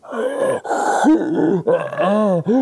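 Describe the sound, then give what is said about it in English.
A voice imitates the labored, rattling breathing of a dying throat cancer patient: a few drawn-out, strained groans broken by brief catches of breath, loud and without other sounds. “my mother had throat cancer. And towards the end, when you listen to her breathe, it was,”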